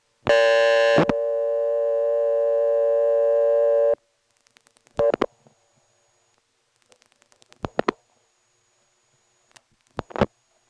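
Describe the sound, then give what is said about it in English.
Busy signal from an independent phone company's line, reached by calling one's own number: a loud, harmonically rich tone holds steadily for about four seconds, followed by a few short, separated bursts with quiet gaps between them. “Here I'm going to call my own number. You may notice callers coming in on the busy signal, which for an independent company is unusual because most independent busy signals are not talkable.”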